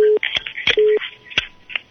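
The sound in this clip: Short telephone tones sound while a phone-in line moves on to another caller's number: two brief, steady mid-pitched beeps, separated by talking voices.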